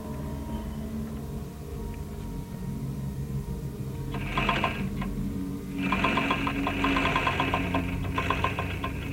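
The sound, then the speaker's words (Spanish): A sewing machine runs in Bill's lair as he sews human skin. Two bursts of rapid, rattling stitching rise over a low background hum, a short one followed by a longer sustained run. “Bill está en su guarida cosiendo piel humana.”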